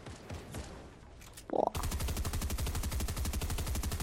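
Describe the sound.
Rapid automatic gunfire in a Zone Wars video game match: a fast, steady stream of loud, evenly spaced shots that begins abruptly after a brief burst and quieter background noise.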